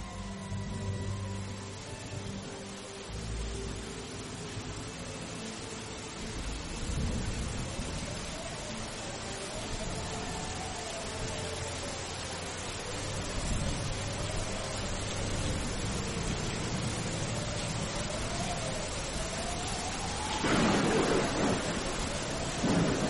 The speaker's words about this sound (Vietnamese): Mây đen vần vũ trên trời, mưa sắp đến rồi.